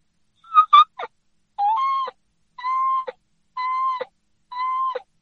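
A person imitates a turkey call with the mouth, pushing up with the tongue and dropping the jaw. A few short clipped notes lead into four sustained, clear tones, each ending with a quick downward break, separated by brief silences.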